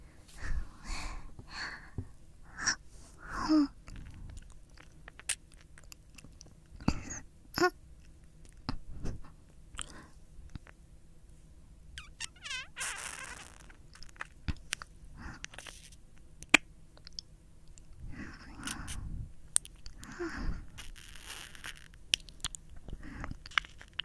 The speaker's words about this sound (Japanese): 吸ってないよ。君のお耳吸ってるの。